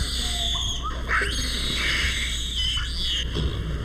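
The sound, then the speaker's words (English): Guinea baboons squall at a zoo, with a few shrill, wavering squeals and cries rising over a steady background hiss. “Among the less musical primates at the San Diego Zoo are these squalling guinea baboons”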